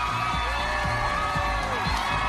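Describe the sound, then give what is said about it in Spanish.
Crowd cheering and whooping from supporters of left-wing candidate Zohran Mamdani celebrating his New York mayoral election win, a dense roar of many voices with shouts and whoops rising above it. “Esta es la euforia de los seguidores del candidato de izquierdas Zoran Mamdani, el hombre de 34 años que se convierte en el alcalde más joven”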